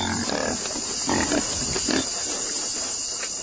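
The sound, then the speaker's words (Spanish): A pig squeals while a vampire bat feeds on its blood, giving a few harsh, rough pulses over a steady hissing noise. “El cerdo apenas se resiste.”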